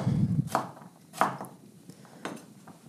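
Knife cutting down through an upright sweet potato for a sweet potato and leek soup: three separate, fairly quiet chopping thumps at uneven intervals, preceded by a soft rubbing sound.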